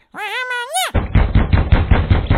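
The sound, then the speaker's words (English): A rapid run of many hard knocks on a wooden door of Benjamin Franklin's Philadelphia home in 1783, in a cartoon scene. It is preceded by a short warbling, wavering tonal squeal. “Go ahead and knock on the door. Is that the best you can do with your little string-like arms? Come on, put some muscle into it.”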